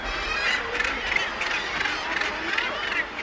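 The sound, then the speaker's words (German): Common guillemots calling at a breeding colony on Heligoland, a continuous, fairly faint mass of overlapping harsh, growling calls with no pause. “Was Sie da hören, sind Trottellummen.”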